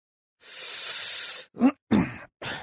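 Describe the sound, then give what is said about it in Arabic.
A drag on a cigarette: a long loud breathy hiss of smoke drawn in or blown out, then three short breathy bursts separated by brief pauses, with no talking. “طب خد شد السيجاره دي وهتلضم معاك”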